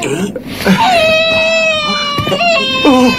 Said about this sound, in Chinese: 哎，好， 不哭不哭， 好不哭 不哭， 好， 姐姐不哭。